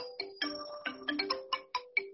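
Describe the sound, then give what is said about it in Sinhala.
A phone ringtone plays as a quick run of short, bright, melodic beeps in rapid succession, each note clipped and rising sharply. It sounds faint and tinny, with no voices over it. “Sir, phone එකටද phone එකක් එන්නේ?”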